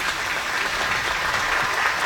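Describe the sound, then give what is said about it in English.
A stadium crowd at a football game applauds an injured Green Wave player, with steady, dense clapping that holds at an even level and no pauses. “And the crowd will give an applause here for the injured player.”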